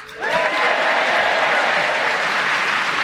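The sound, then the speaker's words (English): Enthusiastic theatre audience in Guildford, Surrey, applauding: dense, steady clapping that swells quickly after a brief quieter start and stays loud and even throughout, with no voices over it. “And as you can hear, we have an enthusiastic theatre audience drawn from many areas of the fine county of Surrey who've come on to show their enthusiasm as we start the show with Paul Merton.”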